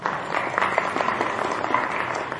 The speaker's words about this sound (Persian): آفرین، یه دست براشون بزن.